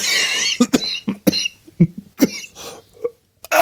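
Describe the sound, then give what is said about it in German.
Coughing from someone who has choked on something swallowed: a rapid series of harsh, loud bursts separated by brief gaps, coming in uneven clusters before easing off. “Oh, Entschuldigung, ich habe mich total verschluckt.”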